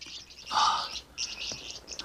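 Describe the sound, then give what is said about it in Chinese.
Small birds chirping in quick bursts of high, thin tweets, with a louder cluster near the start and several shorter calls following. “哎，小鸟，看看谁来了，看谁来了，大虫子来喽。这些小鸟看起来就像糖果，会飞的糖果。”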